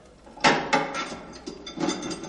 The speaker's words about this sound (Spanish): Abre la atorada puerta con dificultad.